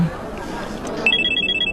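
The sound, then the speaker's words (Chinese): A telephone rings in a domestic drama scene: a steady run of rapid, bright electronic ring pulses begins partway through and repeats evenly to the end, following a stretch of quieter background sound. “说曹操，曹操就到。肯定是小军电话。”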